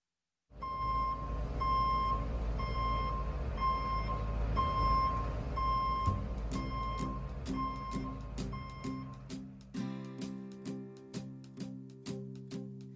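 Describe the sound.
Truck reversing beeps: a steady series of evenly spaced, high electronic beeps over a low rumbling drone, then plucked musical notes take over in a regular rhythm.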